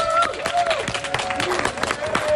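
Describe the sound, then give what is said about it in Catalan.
Live audience applause at the Fira Mediterrània festival in Manresa, welcoming musicians on stage: a dense, steady wash of clapping with scattered crowd voices mixed in, holding at an even level for the whole stretch without fading. “Un aplaudiment!”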